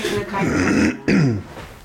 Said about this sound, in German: Nein, ich habe so ein Nach-Covid-Räuspern.